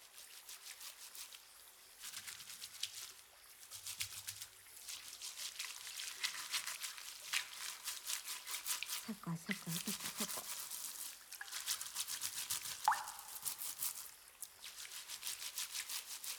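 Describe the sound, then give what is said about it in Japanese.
Water trickles and splashes steadily while a boy's hair is washed and scrubbed, a continuous wet rushing that runs for the whole stretch with small shifts in intensity. “男の子の頭を洗うなんて初めての経験だよ。”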